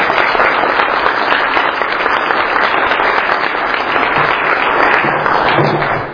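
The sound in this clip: Audience applause welcomes a speaker to the stage: dense, steady clapping from a crowd that holds at an even loudness for about six seconds before tailing off at the very end.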